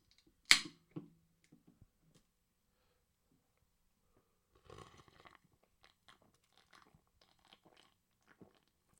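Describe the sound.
Sharp, crisp crack of a bottle of 5% spiced ale being opened, a single quiet burst followed by a faint rustle and a scatter of small clicks and taps, all soft and low in level.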